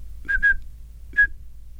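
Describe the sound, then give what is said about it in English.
A person whistles short, steady, high tone pulses to imitate telephone dialing signals for area code 212: two quick pulses, a pause, then a single pulse. “So as an example, if you wanted to dial a call in New York, which let's say starts with area code 212, you would send pulses of 2600 hertz that would sound something like this.”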